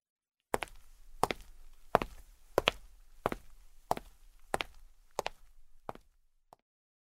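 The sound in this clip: Footsteps of a person walking away after a talk with a manager, nine hard, evenly paced steps with crisp impacts, ending in one fainter final step.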